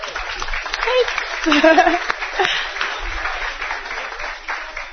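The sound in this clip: An audience applauds to welcome a senior volleyball defensive specialist at a university event, steady clapping that swells briefly, with a voice talking over it.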